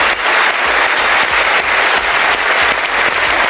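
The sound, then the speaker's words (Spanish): An audience gives an ovation for Barbra Streisand's honorary Palme d'Or, many people clapping in a loud, dense, sustained patter with faint crowd noise mixed in. “la palma de oro de honor fue para Barbara Streisand, que no pudo estar presente, pero quien envió un agradecimiento y fue ampliamente ovacionada por el público”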